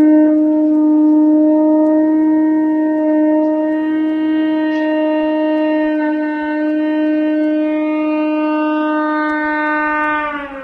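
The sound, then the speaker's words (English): A theremin holds a sustained, humming tone while a cupped hand slowly opens near it. The pitch stays nearly steady, and the tone turns brighter and buzzier toward the end as more upper overtones come in. “My left hand, the closer it gets to the pitch antenna, it sounds like this.”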